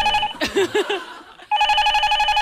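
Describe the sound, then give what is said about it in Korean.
A telephone bell rings in rapid, evenly pulsing trills. A brief voice cuts in over the early ringing, then there is a short pause before the loud ringing resumes and continues steadily. “저희가 그 전화 벨소리 들을 테니까 숨 좀 고르시고 숨 좀 고르시고 자 저 전화 벨소리 들으시고 드릴게요”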